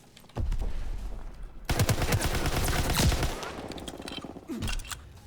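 Rapid automatic gunfire from hip-firing in a video game, with loud crackling bursts that start abruptly, grow denser in the middle and end with a brief final burst.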